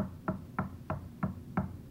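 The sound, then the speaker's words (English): Six evenly paced knocks on a door, steady and fairly quiet, with nothing else heard. “behold, I stand at the door and knock.”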